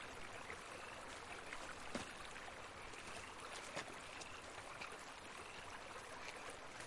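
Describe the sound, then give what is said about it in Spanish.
A river flows past its bank as a steady, quiet watery hiss, broken by a couple of faint splashes or clicks. No voices are heard. “Junto a un río, Sara camina por la orilla. Se agacha.”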